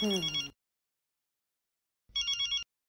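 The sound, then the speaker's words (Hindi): A telephone rings in two short electronic bursts separated by a long gap of silence. “Anjali phone भी लो ना please.”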